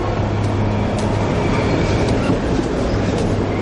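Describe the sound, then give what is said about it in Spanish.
A train arriving at a station platform makes a loud, continuous rumbling roar that stays steady throughout, with a faint hum running underneath. “Un tren llega.”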